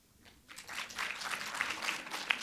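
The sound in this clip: Audience applause in a hall, given as a show of approval in a quick poll about food: near quiet at first, then a bed of clapping rises and holds at a moderate level.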